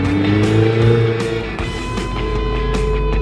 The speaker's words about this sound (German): Ich fahre in einem Ferrari 488 über eine Rennstrecke in Italien und versuche möglichst elegant in eine Haarnadel reinzubremsen.